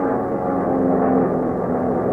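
Airplane engine droning as the plane climbs: a loud, steady, low hum that holds throughout, with no voices.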